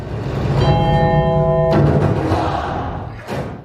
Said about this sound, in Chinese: 钟声是我编进去的，给孩子一个提醒